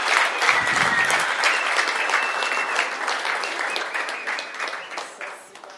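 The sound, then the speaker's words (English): Church audience clapping hands in sustained, dense applause that starts strong and slowly tapers, with a brief low rumble near the start. “Let's clap our hands for onward.”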